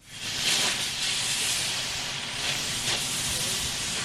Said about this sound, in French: Ce que vous êtes en train d'entendre, c'est le bruit d'un chalumeau professionnel utilisé hier pour faire fondre de l'acier et pour découper en quatre morceaux la cheminée